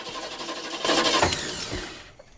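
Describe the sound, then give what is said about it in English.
A car ignition key turned and the engine cranking without catching: a rough whirring grind that swells in the middle and then fades, moderately quiet. “She shuffles over to the driver's side and turns the key.”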